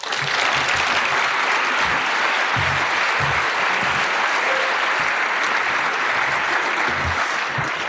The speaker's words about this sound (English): Please welcome Lynn Hejinian.